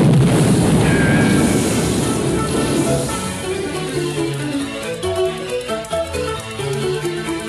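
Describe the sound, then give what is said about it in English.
An explosion roars with a heavy, sustained low rumble that stays loud for a few seconds, then slowly fades as music-like tones rise over it. “Look out! Hey, it's gonna explode!”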